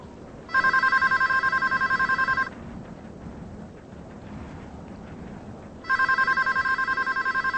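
A telephone rings in two bursts of rapid, trilling electronic bell tones, each about two seconds long, separated by a pause of low background hiss.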